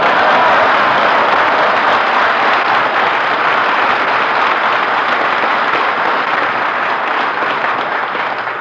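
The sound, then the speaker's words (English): Sustained studio audience applause for a comedian's entrance in a radio comedy, a dense, even wash of clapping that holds steady and fades slightly toward the end. “Why do you always ask for applause when you make your entrance?”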